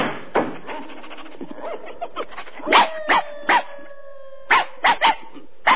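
Dogs bark and howl as an alarm: a run of sharp barks and short yips, then a drawn-out wavering howl in the middle, followed by more loud barks.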